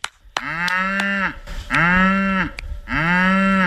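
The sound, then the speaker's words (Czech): Cows and calves low loudly at a farm as they come running in for feeding, three long, drawn-out moos with rich, buzzy tones separated by short gaps. “Ne, bík ne, zatím běží krávy a telata.”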